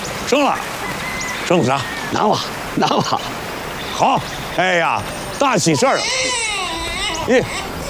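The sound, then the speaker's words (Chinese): A newborn baby boy cries loudly in many wailing bursts, each rising and falling in a strong, harmonic howl. Adult voices can be heard talking around the cries. “咦，这哭这声音还大了个啊，底气足。”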